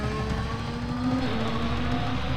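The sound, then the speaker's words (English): Loud, continuous high-revving engine roar of a Formula One race car on a lap, a dense, buzzing drone with its pitch held mostly steady throughout. “Do you think that can keep up with me around the lap in an F1 car?”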